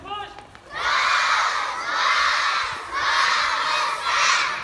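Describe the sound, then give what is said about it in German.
About 180 children aged six to thirteen shout in unison at a primary school's morning assembly in a schoolyard in Qamishli, northeast Syria. Four loud, sustained chanted bursts follow one another with brief dips between them. “Morgenappell in Kamischli. Etwa 180 Kinder zwischen 6 und 13 Jahren stehen auf dem Hof einer Grundschule der autonomen Verwaltung Nordostsyrien. Sie schreien Rojbash,”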